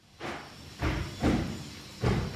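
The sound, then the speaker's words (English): A construction crew bangs on walls at a clinic with four heavy, dull thuds at uneven intervals, each blow followed by a short rumbling tail. “A construction crew is banging on some walls when Layla Herbert Gray walks in with her mom.”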